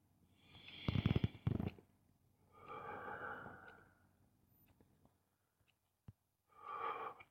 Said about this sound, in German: Tiefe, bewusste Atemzüge.